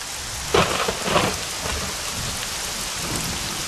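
Steady rain falls in a thunderstorm, a dense, even hiss throughout with two brief louder bursts early on.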